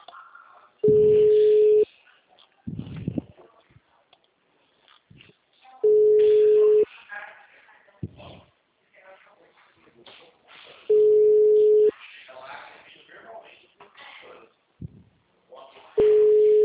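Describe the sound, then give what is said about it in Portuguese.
Telephone ringback tones on a call to a toll-free number: four steady, low, one-second tones spaced about five seconds apart, with quieter talk and noise in the gaps between them. “Ligando 0800. Chamada encaminhada.”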